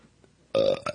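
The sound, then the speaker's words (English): A burp after drinking wine: one loud, low, throaty belch that breaks off briefly and then ends in a short second burst, with no talk. “Was that a wine burp? That was a wine burp.”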